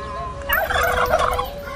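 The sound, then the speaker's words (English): A free-range turkey gobbles upstate, one rattling, warbling burst that stands out over a low background rumble. “No, I want this turkey right here.”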